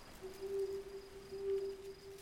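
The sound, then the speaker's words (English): An owl hooting from a mossy branch in a tall tree at night: two faint, drawn-out hoots at a steady pitch over a soft background hiss. “In a tall tree near Abby and Rudy's campsite, an owl sits on a mossy green branch.”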